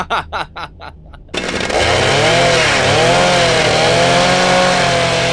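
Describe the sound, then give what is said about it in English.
A motorized saw, meant as a bone saw for cracking open a skull, gives a few short bursts before roaring into a loud, continuous buzzing run with a wavering pitch. “Boys, put the saw down.”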